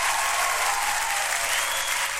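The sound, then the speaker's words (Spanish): Dense, steady applause from a crowd saluting firefighters on the anniversary of the first volunteer fire brigade, holding level and loud for about two seconds with no talking over it. “Así que vamos a saludar con un grandote aplauso a todos los bomberos de nuestro país, del mundo.”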